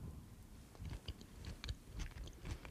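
Soft chewing and mouth sounds as someone tastes a homemade tuna-free tuna spread made with corn and mayonnaise. The bites come faint and irregular, with moist, slightly crunchy textures and no talking.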